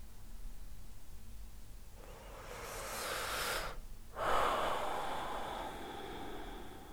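A deep breath is drawn in on instruction as a faint, airy hiss that swells over a couple of seconds. After a brief break, a longer breathy rush continues to the end, alone without talk.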